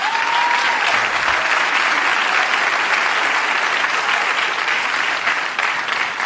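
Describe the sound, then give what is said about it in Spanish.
An audience applauds a sign language interpreter with sustained, dense clapping that stays steady and loud from start to finish. “Un aplauso para la traductora.”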